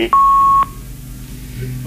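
A phone call drops with a single loud, steady electronic beep lasting about half a second, then a low, even background hum.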